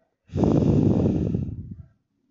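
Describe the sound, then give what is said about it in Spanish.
A single long breath drawn through the nose during a guided relaxation exercise: a steady, airy rush lasting about a second and a half. It is fairly loud and heard alone, with no talking. “Y tan solo estás ahí, inhalando por tu nariz, y exhalando por tu nariz.”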